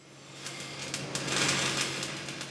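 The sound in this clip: Electric welding in a community college welding shop joins two pieces of metal with a crackling, sputtering buzz over a steady low hum. Short crackles burst through repeatedly and swell slightly louder midway.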